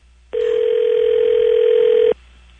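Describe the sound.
A telephone tone sounds while calling the M&M's consumer hotline: a single loud, steady, unbroken tone lasting about two seconds over a faint low hum.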